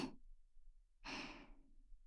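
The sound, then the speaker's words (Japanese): Soft breath blown into the ear, a brief faint puff at the start followed by a longer, airy exhalation of about a second, breathy and hushed with no voice. “ママの甘い息ふうふうされるの好き？”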